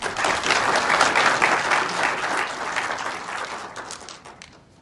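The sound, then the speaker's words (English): An audience applauds a speaker at a talk on political biography. The clapping is loud and dense at first, then gradually thins and fades as it winds down. “So please put your hands together and welcome David Day.”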